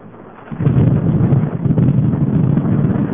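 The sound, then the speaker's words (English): Wind buffets a microphone outdoors in snow, giving a loud, continuous low rumbling roar that swells after the first half second and stays rough and unsteady, with no voices. “I'm trying to prevent the wind from blowing on the microphone so you can hear the snow.”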